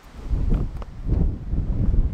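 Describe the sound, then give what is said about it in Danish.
Wind blowing across a hilltop where a church stands comes through as low, buffeting rumbles of noise. It rises and falls in a few uneven gusts with no voices. “Det blæser godt hen over den bakke, hvorpå Bjergby Kirke ligger.”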